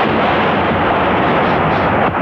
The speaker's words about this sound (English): The big guns rained more shells on the Bosnian capital.